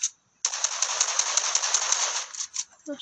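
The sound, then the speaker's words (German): Rapid automatic gunfire in a video game shooter, with one opening shot and then a sustained burst of sharp, crackling rounds for about two seconds. A player curses briefly at the end. “Du hast auf dem Bot, glaube ich, geschossen, oder?”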